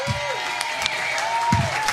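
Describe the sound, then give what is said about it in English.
Rowdy studio audience applauding and cheering at a Valentine's Day show, a dense, steady wash of clapping and crowd noise that stays loud throughout. “This is the rowdiest crowd we've had here in a long time. Obviously, people in a Valentine's Day kind of mood.”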